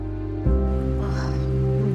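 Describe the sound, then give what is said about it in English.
Rain streams down a nearby window in a steady, soft hiss that continues without a break, while a low sustained hum runs underneath. “Rain streams down the nearby window.”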